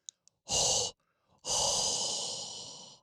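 A hot breath exhaled in a long, loud, airy whoosh lasting about one and a half seconds that slowly fades, preceded by a shorter, sharp breath.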